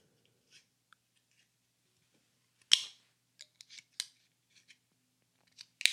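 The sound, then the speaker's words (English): Fingernails scratch and tick at the tab of a can of yerba mate drink, a few sharp clicks scattered over quiet, ending in a sharper, louder burst. “All right, everyone hear this? That's me about to crack the yerba and really deep dive.”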